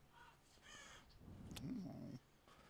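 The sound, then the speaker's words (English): A crow caws harshly, a rough call standing out clearly against a low, steady background rumble. “I hate crows.”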